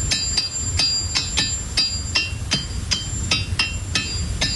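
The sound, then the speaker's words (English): Ringing rocks struck in a steady, even rhythm, each sharp hammer-like hit giving a bright, high metallic ring; many strikes follow one another with no talk. “they have found that the rocks away from their friends don't even ring. They need to be with the other rocks to ring.”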